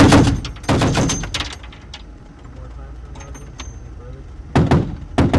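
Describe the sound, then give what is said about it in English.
Humvees in a convoy test-fire their weapons while leaving the base, producing loud clusters of rapid gunfire bursts at the start and again near the end, with a quieter stretch between them. “just in case someone does decide to confront the convoy, each Humvee test fires its weapons as we leave the base.”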